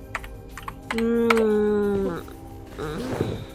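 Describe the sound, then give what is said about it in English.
Keys tapped on a computer keyboard while entering a password, a few scattered clicks, then a sustained electronic tone, then more quick tapping and clatter. “Ah, there's a shortcut the boss left me. All right. And then I type in the password.”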